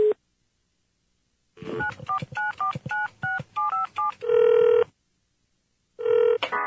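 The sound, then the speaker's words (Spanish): Telephone keypad tones as a number is dialed: a rapid series of short two-tone beeps, then a longer steady tone, a pause, and another steady tone, with no talk. “voy a llamar a José.”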